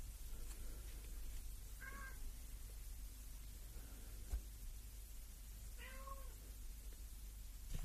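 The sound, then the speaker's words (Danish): A cat meows twice behind a closed bedroom door, shut out and agitated. The two faint cries are well spaced over a quiet, hissy background. “I må undskylde, hvis I hører kattemiaven i baggrunden. Min kone har lukket døren ind til soveværelset, så katten ikke kan komme ind og krybe op i sengen. Og det er den rasende over.”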